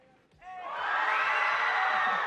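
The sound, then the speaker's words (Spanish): Audience on the left side of a school event shouting and cheering during a ticket giveaway: after a brief lull, many voices swell into loud, sustained mixed yelling and whoops that hold steady to the end. “A ver, lado izquierdo, grite.”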